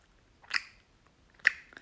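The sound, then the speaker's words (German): Slow, relishing lip smacking: two soft, wet mouth clicks about a second apart, faint and unhurried against quiet, with no talk. “Also natürlich soll das auch kein schnelles Schmatzen sein. Das wird dir weniger helfen, aber so ein ganz genüssliches, langsam werdendes Schmatzen.”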